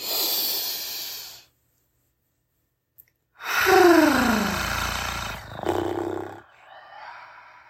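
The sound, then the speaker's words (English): Deep breaths taken during a guided relaxation exercise: a breathy rush, a pause of silence, then a longer, louder drawn breath, with faint airy noise trailing off at the end. “let's start off with a few deep breaths. All right. Inhale.”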